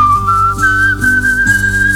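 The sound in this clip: Whistling in a bathroom: one sustained, clear high note that holds steadily for about two seconds and drifts slightly upward in pitch, fairly loud and without talk.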